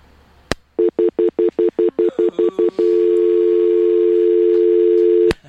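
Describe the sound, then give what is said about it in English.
A telephone line tone after a failed call-in: a sharp click, then a quick series of short, steady beeps that merge into one long continuous tone lasting a few seconds, cut off by another click. “Call fail. Repeated. Oh, man. That hurts. I don't know what happened there.”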